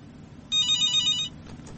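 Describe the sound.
An incoming listener's call announces itself with one high, trilling electronic telephone ring lasting under a second, clear and alone against a quiet, low hum.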